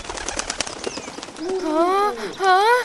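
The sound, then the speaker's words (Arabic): A small bird flaps its wings and lands on a branch in a children's tale about a tortoise: a rapid flurry of light fluttering taps, followed by wavering, warbling high tones. “وبعد قليل وقف طير صغير على الغصن، انتبهت إليه السلحفاة وقالت له”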